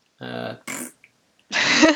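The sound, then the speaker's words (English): A fart sounds as a short, low, buzzing rasp lasting about half a second, followed by a briefer, noisier burst and then a voice. “You just got farted at.”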